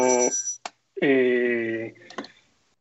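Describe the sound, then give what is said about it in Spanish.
A phone rings mid-call with steady, bright electronic tones, sounding in two bursts separated by a short gap and then tapering off. “y es que me estaban llamando justo al mismo momento. ha sido como está sonando todo”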